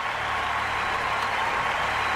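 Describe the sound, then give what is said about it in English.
Dense, steady applause from an audience at the 1988 MDA Labor Day telethon, an even wash of clapping that holds at the same level with no break. “when they stopped clapping, of course, in 1988 at the MDA Labor Day telethon”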